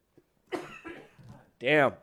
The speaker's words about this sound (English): I'm starting to get a coughing fit. And I don't want to cough into the microphone for an hour.